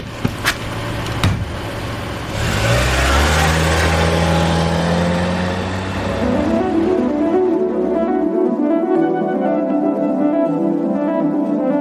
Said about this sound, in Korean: 택시 부르셨어요? 네 내가 아까 살짝 불렀다